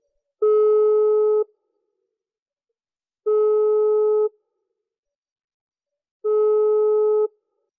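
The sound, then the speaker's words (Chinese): Ringback tone of an outgoing phone call while waiting for the other side to answer: three steady, buzzing one-second beeps separated by even two-second silences, with no voices. “等我一下，我马上拿电话啊，我给这个小叔打电话。”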